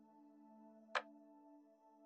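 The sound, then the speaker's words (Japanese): A clock hand clicks back a single tick: one sharp, bright click at the midpoint over a soft, sustained tonal drone that otherwise stays quiet and even. “カチッと時計の針が一つだけ戻る。”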